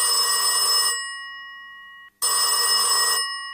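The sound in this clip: A telephone rings while a call is being placed. Two loud, bright ringing bursts of about a second each are separated by a longer pause, with no voices.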